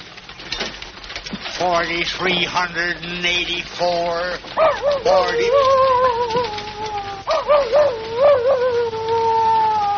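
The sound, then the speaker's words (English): Coyote howling in wavering, sliding tonal calls, several rising and falling cries that swell and fade, carried over a steady low background hum. “Coyote.”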